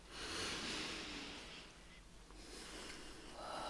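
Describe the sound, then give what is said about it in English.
A slow, very deep breath taken in calm, quiet surroundings, faint and airy with a slightly snorting, rushing quality as the air is drawn and let out. “let's take that moment right now. Let's all take a very deep breath.”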